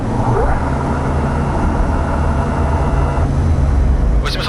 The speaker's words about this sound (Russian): Шасси выпустить. Выпускаю.